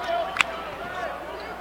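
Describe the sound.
A basketball bounces once on the court during a game, a single crisp thump under a commentator's voice.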